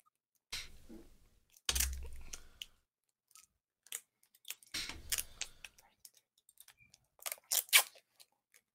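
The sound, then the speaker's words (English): Sticky tape is pulled and torn to tape headphones back together, giving a few rasping, crackly bursts of ripping with short clicks between them. “You fucking started taping some presents, so. What are you doing? no, he's fixing his mic, isn't he? I'm taping my headphones back together.”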